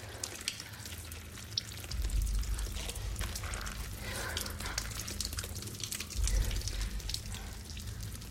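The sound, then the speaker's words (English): Water trickling down through a rock fissure in a cave, a faint, steady patter of small drips and splashes that continues without a break. “Water trickles down through a fissure near to Sarah.”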